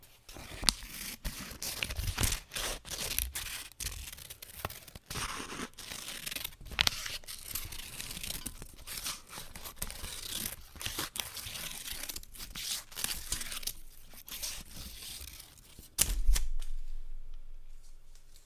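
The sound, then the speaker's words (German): Scissors cut through paper to snip out a spiral shape, making many crisp repeated snips and crinkles in a steady rhythm that stop near the end. “Ich habe da gerade was ausgeschnitten. Das schaut aus wie eine Schnecke.”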